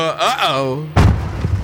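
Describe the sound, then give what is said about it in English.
A car jolts over a bump in the road with a sudden heavy thud and rattle, right after a brief vocal exclamation. “Watch out for that bump!”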